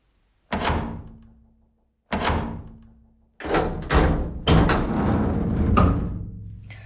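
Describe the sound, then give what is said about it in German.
A door being closed, heard as heavy thuds: two separate bangs that each ring out and fade, then a denser run of knocks and rumbling. “Also machte ich die Tür zu und ging.”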